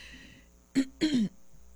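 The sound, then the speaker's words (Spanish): Someone clears their throat with two short, rasping bursts, the second longer than the first, heard alone against a quiet background. “Ay, perdón, la garganta, como siempre, o como casi siempre.”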